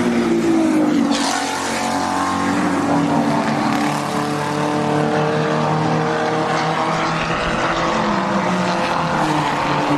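Roaring engines of modified Maserati race cars on fancy tires, racing closely together: a loud, continuous, harmonic-rich snarl whose pitch shifts as the cars pass. No voices.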